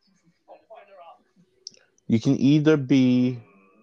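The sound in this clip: A computer mouse gives a few soft, quick clicks while opening a folder, and then a voice starts talking.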